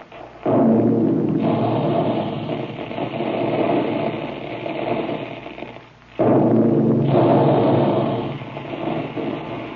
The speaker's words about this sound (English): Big guns. That's the way they sound when they're making puffed wheat and puffed rice.